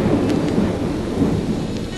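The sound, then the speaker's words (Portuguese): Heavy rain pours down during a thunderstorm over a city, a dense, steady roar with deep thunder rumbling underneath throughout, and no voices. “Uma tremenda tempestade cai sobre a cidade.”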